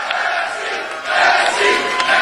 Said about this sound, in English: They're cheering.